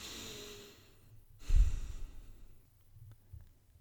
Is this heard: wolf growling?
no

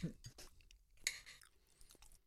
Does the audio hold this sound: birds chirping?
no

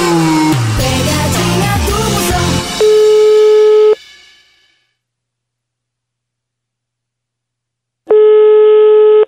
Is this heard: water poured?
no

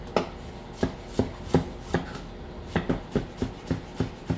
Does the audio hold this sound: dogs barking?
no

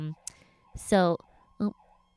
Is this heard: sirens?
yes

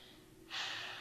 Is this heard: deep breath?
yes

